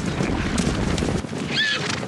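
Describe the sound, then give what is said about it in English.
Wild mustang horses in a thundering herd on northern Wyoming badlands: a steady, dense rumble of hooves with a short, high whinny near the end. “But in this empty quarter of the cowboy state is a thundering herd of Mustangs.”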